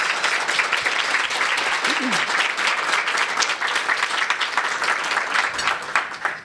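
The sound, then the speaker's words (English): Audience applause welcoming speakers to an interfaith talk about Islam: steady, dense clapping sustained at an even level throughout, easing slightly at the very end. “Please give them a warm round of welcome.”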